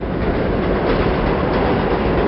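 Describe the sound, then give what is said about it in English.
A New York number 6 subway train runs through the Bronx with a loud, continuous rumble and rolling clatter of wheels on track. The noise is dense and steady from start to finish, with no voices. “Getting off the number 6 train at Elder Avenue in the Bronx”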